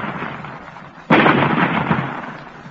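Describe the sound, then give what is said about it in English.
Weapon fire blasts and splits a rock: a single loud explosion breaks in abruptly after a low murmur, then trails off in a long rushing rumble. “Ready with the range? They have found the range, Commander. You may fire. Fire! Look, the rock is splitting.”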